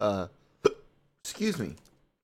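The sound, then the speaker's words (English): A sharp, sudden hiccup from someone who has developed hiccups: a single short burst between brief stretches of voiced vocal sound. “I've apparently developed some hiccups.”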